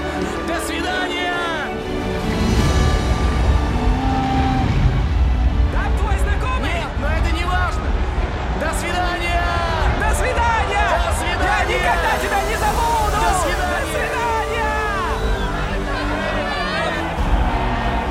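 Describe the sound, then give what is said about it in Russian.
Crowd hubbub from many people on a pier as a ship sets off, a steady murmur of overlapping voices and chatter that holds without pause. “Джек и Фабрица пробиваются через толпу людей на кормовую палубу.”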